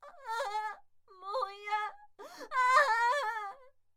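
A woman wails and cries in three drawn-out, tonal bursts separated by short breaths, the last one longer and loudest, with wavering pitch throughout.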